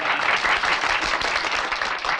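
Applause from people clapping at the opening of a kendo hall, a dense, steady patter of many hands that keeps up at an even level throughout.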